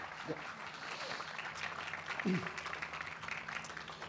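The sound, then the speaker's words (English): Applause from a lecture audience welcoming a speaker, a moderate, steady wash of clapping that continues evenly throughout. “Please give Dr. Matthew Longo a really warm welcome.”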